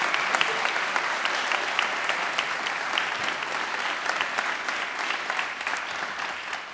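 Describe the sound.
An audience in Waterloo, Ontario applauds to welcome panelists: sustained, even clapping from many hands, moderately loud, with individual claps popping out of the steady wash throughout.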